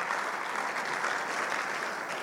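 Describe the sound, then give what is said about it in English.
Audience clapping hands in a big morning round of applause, with many hands forming a dense, even roar that stays level from start to finish with no talk over it. “great big old hand clap this morning.”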